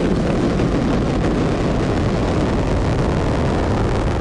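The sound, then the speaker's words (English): Space shuttle liftoff as the main engines and boosters ignite, a loud, dense, unbroken roar that fills the whole stretch without pause. “We have main engine start. 2, 1. Booster ignition. The shuttle makes its way skyward.”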